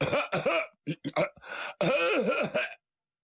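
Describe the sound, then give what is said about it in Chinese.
A man's voice imitates a man clearing his throat with coughs, giving a few loud, rough coughing bursts and throaty rasps in quick succession, then silence. “他有个毛病叫亮嗓。怎么叫亮嗓？他得咳嗽几声，跟家里人先打个招呼，”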